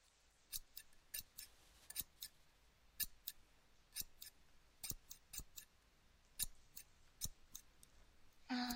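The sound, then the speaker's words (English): Scissors cut hair with many crisp, sharp snips at an irregular pace, some in quick pairs, others spaced apart. The snips are quiet but distinct against a soft hiss. “I'll go ahead and start cutting now, okay? Just hold your head like that for me.”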